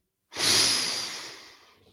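A single deep breath drawn in during a guided relaxation exercise: a breathy rush of air that starts abruptly, peaks quickly, then tapers off gradually over about a second and a half, with no talking.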